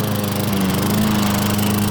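A lawn mower runs as a garden machine, giving a loud, steady engine drone with a low hum underneath. It continues unbroken throughout, with no voices.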